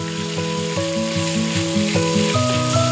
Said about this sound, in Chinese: 热锅下菜油，烧至60成熟，再放入剁细的牛肉末，煸炒至酥嫩。